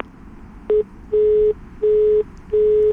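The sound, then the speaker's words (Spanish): Telephone tone after a phone call is cut off: a short beep followed by three longer, evenly spaced beeps at the same steady pitch, clear and moderately loud over faint background noise. “Le están cortando el teléfono.”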